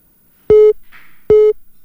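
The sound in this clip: Telephone busy tone after a call is cut off: two identical short beeps, each a steady mid-pitched tone about a fifth of a second long, separated by a brief gap, heard alone with no voices.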